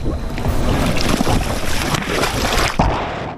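Paddles work the water as scout recruits row a small boat toward a beach in a quiet, covert landing, giving a continuous watery swishing mixed with rushing wind noise.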